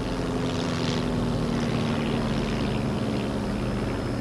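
A propeller aircraft descends toward a runway through snow at night, its engine a steady, loud drone with a constant low hum running throughout.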